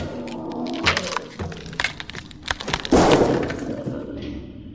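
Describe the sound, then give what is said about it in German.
A lamp being smashed, with glass breaking in a scatter of sharp cracks and clinks, ending in one louder crash and a brief tinkling tail; low rumbling and shuffling sit underneath, with no clear speech. “Scheißlicht. Du Riesenteddy, musstest ja unbedingt die Lampe tranchieren.”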